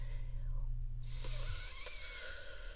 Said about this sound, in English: Hold it. 1, 2. Release. 1, 2, 3. So I breathe in. 1, 2, 3.